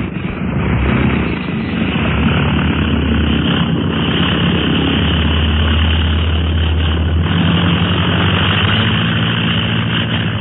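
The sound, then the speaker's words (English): A heavily loaded propeller airplane roars through its takeoff. The muffled engine drone stays loud and continuous throughout, with a slight shift in tone partway through. “We're in the air. Wasn't that a swell takeoff”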